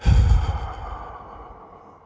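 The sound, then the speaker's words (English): A single long, breathy exhale through the mouth forms the slow eight-count out-breath of a 4-7-8 breathing exercise. It starts strong and fades steadily over about two seconds. “Once you've held your breath for seven, it's an exhale through the mouth for eight.”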